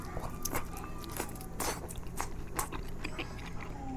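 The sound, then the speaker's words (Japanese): Biting and chewing into a thick pork steak dressed with Worcestershire sauce, heard as a series of crisp, moist crunches and clicks with no talk. “豚のステーキですよ。いただいてみましょうか。よし、この辺分厚いとこ行くか。”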